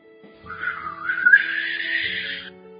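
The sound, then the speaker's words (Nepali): A person whistles a short, wavering melody that glides upward in pitch and holds high before stopping. It is fairly soft, lasts under three seconds and is heard alone. “मैले सुसेली हालेको सुन है।”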